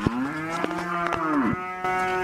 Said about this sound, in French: Nous sommes dans une ferme d'Okigalamango où sont élevés des vaches, moutons, chèvres et porcs.